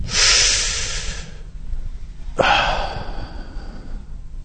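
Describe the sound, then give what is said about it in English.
People take deep breaths in during prayer, giving a loud, airy rushing inhale, then a short lull, then a second breath that starts sharply and fades over about a second and a half. “And now, just prophetically, we breathe you in, Holy Spirit.”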